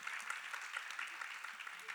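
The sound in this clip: Steady applause from a church audience welcoming a guest on stage: a dense, even patter of many hands clapping that runs without a break for the whole moment.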